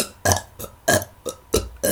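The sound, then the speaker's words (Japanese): A rapid series of short, throaty burps with brief pauses between them, loud and alone without talk. “私がやったみたいにあんたもゲップをかけてやったらどうかしら？”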